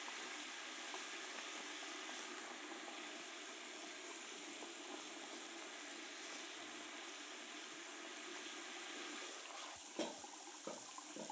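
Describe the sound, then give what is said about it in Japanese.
Hot water runs from a tap before a hair wash, a steady, even hiss of flowing water throughout, with a few brief splashes near the end and no talk. “もうちょっとであったかいお湯が出ますよ”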